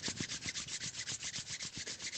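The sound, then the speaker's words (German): Hands rubbing together in a guided relaxation exercise: a long series of quick, even back-and-forth strokes that make a steady, rhythmic hiss, with no talk over it. “Du kannst deine Hände aneinander reiben”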